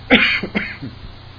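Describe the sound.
A person clears their throat after breathing in a cloud of dust. One strong, harsh rasp is followed by a few shorter, weaker rasping catches that fade out.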